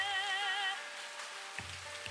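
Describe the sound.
Rain falling as a steady, faint hiss of drops on a surface, with a couple of soft taps near the end.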